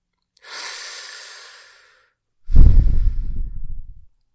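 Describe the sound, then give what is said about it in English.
A person takes a deep breath: a soft, airy intake of breath is followed after a short pause by a louder, heavy exhale with a rumbling rush of air. No voices are heard. “Deep breath.”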